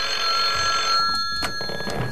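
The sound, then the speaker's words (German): A telephone rings with a loud, steady bell-like tone that holds for about a second and then stops, leaving low background noise. “Einige Stunden später klingelte bei Beefy Tremaine das Telefon.”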